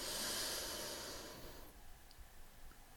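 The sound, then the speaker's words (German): A deep breath is drawn in through the nose during a guided breathing exercise, a soft, faint airy hiss lasting about a second and a half before tapering into quiet. “Atme tief durch die Nase ein”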